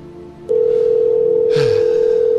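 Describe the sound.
A telephone call rings during a prank phone call, heard as one steady, loud ringback tone that holds for about two seconds before cutting off, with no voices.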